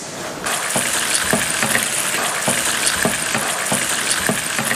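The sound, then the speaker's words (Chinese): Diced chicken stir-frying in hot oil in a wok: a loud, steady sizzle that runs throughout, broken by regular scraping and tossing strokes of the stirring. “我们放入鸡丁翻炒一下。 来，看老师放入鸡丁，”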